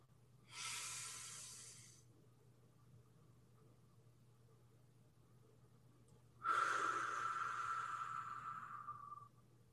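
Slow breathing exercise: a soft, airy inhale, a long silent hold, then a longer, louder exhale that tails off. Both breaths are faint and breathy, with no talking.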